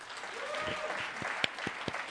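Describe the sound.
An audience applauds on cue during a talk, a dense, steady patter of many hands clapping that holds at an even loudness for the whole moment.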